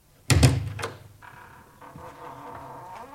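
A house door being opened: a heavy thunk, followed by a few fainter clicks and rattling sounds that fade out.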